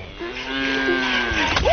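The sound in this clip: A cow mooing once in a long, low, steady call that drops away at the end.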